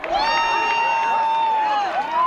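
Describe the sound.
About a thousand people cheer in an agricultural field at the moment of a total solar eclipse, with one long, sustained high cry held over steady background crowd noise.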